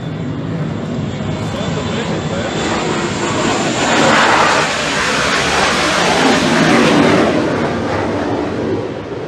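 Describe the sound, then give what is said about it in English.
A military aircraft flies low past the end of a Navy air base runway, making a loud, continuous jet roar that fills the whole clip and swells twice, with surges around the middle and again near the end. “U.S., right at the end of the runway of Navy Air Base. They are amazing.”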